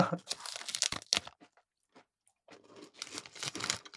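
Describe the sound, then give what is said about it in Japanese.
Crunching of a crisp cookie being bitten and chewed, in two bursts of dry, sharp crackles separated by a quiet pause. “めちゃくちゃサクサク。 これぞクッキー。”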